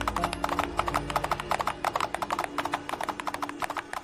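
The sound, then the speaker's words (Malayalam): Hooves of two horses clip-clop as their riders head off into the darkness at night, a steady, rhythmic run of many crisp hoofbeats with no voices. “തമ്പുരാനും ചന്തുവും വേഷപ്രച്ഛന്നരായി 2 കുതിരപ്പുറത്ത് കയറി ദാ ഇരുട്ടിൽ മറഞ്ഞു.”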